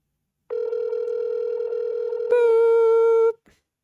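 Phone call ringing while waiting for pickup, a steady electronic tone that switches partway to a brighter, louder tone, then cuts off abruptly.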